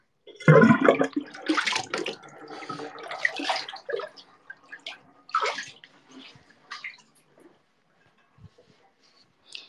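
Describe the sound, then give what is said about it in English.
Water sloshing and gurgling as a bathtub is drained, with loud splashes at the start that thin into intermittent gurgles and fade toward quiet. “time to drain the bathtub and we can talk while I dry off”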